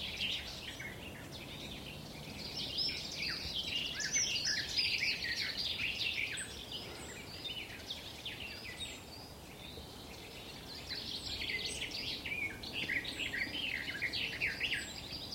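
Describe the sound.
A wild bird sings a throaty, rambling song on a mountain: a continuous stream of high, rapid warbling phrases with short pauses, over a low steady background hiss.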